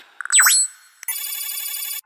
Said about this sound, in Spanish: Llamada entrante.